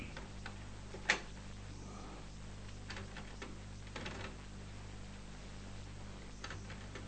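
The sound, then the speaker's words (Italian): A cassette tape being changed in a tape recorder: one sharp mechanical click, then a few faint ticks over a steady low hum. “Sì, decisamente finita la registrazione. Oppure si è bloccato il nastro. Bene, un attimo di pazienza che metto un altro nastro.”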